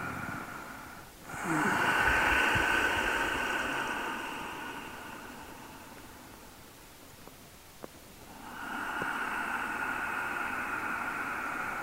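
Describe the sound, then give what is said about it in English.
Deep, slow exhales during a breathing exercise: two long, airy breaths with a quieter hissing stretch between them. “Three more deep exhales.”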